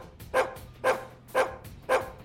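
Dog barking in a studio: four short, mid-pitched barks evenly spaced at a steady rhythm, each clear and loud over a quiet background.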